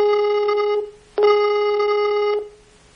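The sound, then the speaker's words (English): A telephone line gives dialing tones: two steady, loud, buzzy tones at the same pitch, the first short and the second longer, separated by a brief silent gap. “Oh, now it's dialing. There we go.”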